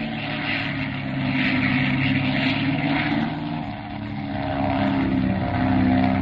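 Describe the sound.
Propeller airplane engine droning steadily while the plane flies tight figure eights, a loud, continuous buzzing hum that swells and dips gently in level, with no talk over it.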